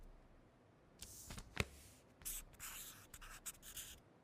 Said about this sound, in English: I see you're drawing a guitar.